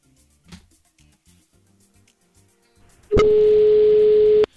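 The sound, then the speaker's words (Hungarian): A telephone ringback tone sounds while a call is being placed. It is one steady, mid-pitched beep about a second and a half long and fairly loud, after quiet faint background noise. “Kicsöng.”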